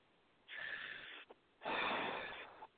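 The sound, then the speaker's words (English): A person breathes during a guided spiritual session, in through the nose and out through the mouth. There are two breaths: a softer inhale, then a longer and louder breathy exhale, alone and fairly faint. “And another breath in through your nose and out through your mouth.”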